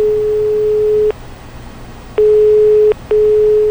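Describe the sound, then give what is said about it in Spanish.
Telephone ringing tone on a wall phone after a home number is dialed. A steady, pure low hum sounds in long pulses separated by short silences, alone on the line. “Lo estuvo mirando fijo un rato hasta que se decidió y marcó el número de la casa de Manu.”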